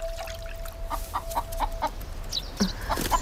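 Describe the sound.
Chickens cluck while being fed in a farmyard. The clucks are short and repeated at a moderate pace, fairly faint over a steady background hiss, and one louder squawk comes near the end.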